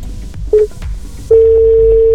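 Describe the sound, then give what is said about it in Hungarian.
Telephone line tones as a call is placed for a phone-in game: a short beep, then after a pause a steady, unbroken mid-pitched tone that holds to the end over low background noise. “most pedig Szabolcsot hívom telefonon, és jön számára az állítás.”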